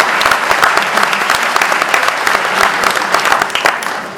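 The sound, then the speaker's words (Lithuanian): An audience claps in celebration of a silver anniversary, with dense, continuous applause from many hands holding at a lively, even level throughout. “Bravo, paplojam į sidabrinę.”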